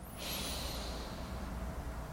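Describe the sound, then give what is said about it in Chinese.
A deep breath drawn in through the nose to fill the chest during a seated posture exercise, heard as a faint, steady airy hiss lasting most of two seconds, alone. “吸到整个胸口都是满的气，对，吸到满的气，对，然后身体尽能放松，再放松哦，放松，再吸，再吸，再吸，对，然后就吸气吸到满之后看前面”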